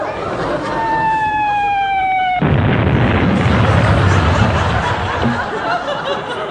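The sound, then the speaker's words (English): A loud naval gun blast from Home Fleet warships goes off during a ship-naming and race start: a falling whistling tone gives way to a sudden heavy boom, then a sustained rumbling roar. “I don't think it was the starting pistol, sir. I think it was a rather loud present from the Home Fleet. They must have thought you were firing at them,”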